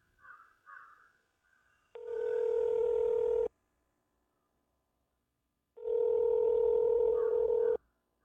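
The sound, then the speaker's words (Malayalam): Telephone tones while placing a call: two long, steady electronic beeps separated by a stretch of silence. “ഞാനിപ്പോൾ തന്നെ വിളിച്ചു പറയാം.”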